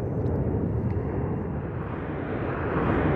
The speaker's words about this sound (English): despite airplanes flying overhead,